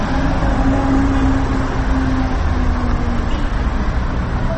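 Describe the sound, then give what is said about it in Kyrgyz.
Dense street traffic roars at a busy intersection in Osh, where a BMW runs a red light: a continuous, loud wash of engine and tyre noise with a faint steady hum beneath, no clear voices. “BMW кызыл чыракка карабай өтүп кетүүгө мынакей аракет кылып атат. Ал арада болсо жөө жүргүнчүлөр токтоп турган унааларды аралап тияктан бияка өтүп атат.”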